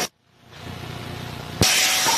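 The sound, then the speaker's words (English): A vehicle takes off during a police pursuit: after a short burst and a moment of quiet, engine noise builds steadily, then jumps abruptly into a loud, sustained rushing roar. “Vehicle is taking off.”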